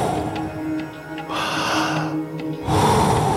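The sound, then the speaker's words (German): Deep breathing in and out during a guided breathing exercise: long, airy rushes of breath, with a softer stretch giving way to a few loud, broad whooshes, and no talking. “Voll einatmen und dann wieder loslassen. Jawohl. Voll einatmen und dann wieder loslassen.”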